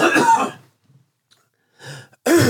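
Harsh coughing and throat clearing from a piece of candy stuck in the throat: a few rough bursts separated by a short quiet pause.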